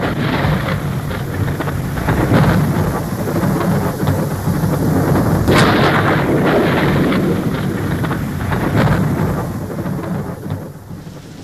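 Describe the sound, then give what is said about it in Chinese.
A thunderstorm with a heavy downpour: loud, dense rain roars steadily throughout, with low rumbles of thunder swelling and fading beneath it. “倾盆大雨冲刷了几分闷热，却冲刷不掉803”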